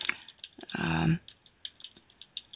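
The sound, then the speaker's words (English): Typing on a computer keyboard: scattered light, irregular key clicks, with one brief louder rustling burst near the start. “We just thought we had everything let me just type him again.”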